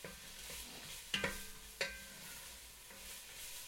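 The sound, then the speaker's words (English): Onions and garlic sizzle in oil as they are stirred in a pan. A soft, faint, steady frying hiss runs throughout, broken by a few sharp clinks of the stirring utensil against the pan. “As this cooks, you're going to want to stir around the onions and garlic in the oil for 3 to 5 minutes until they become translucent.”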